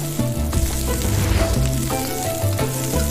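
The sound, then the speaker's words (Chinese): Lean meat stir-frying in hot oil over high heat, a loud, steady hiss of sizzling that continues unbroken from start to finish with no talk. “再将瘦肉投入热油，急火翻炒间锁住每一分肉汁。”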